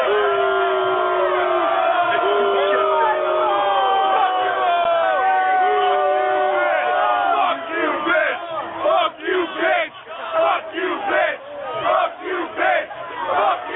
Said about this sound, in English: My studio audience seems to disagree with you, Ric Flair.